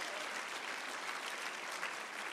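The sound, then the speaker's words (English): Congregation clapping hands in worship during a church service: a continuous, even patter of many hands at a moderate level, holding steady throughout with no voices on top. “Clap your hands to the glory of the Lord.”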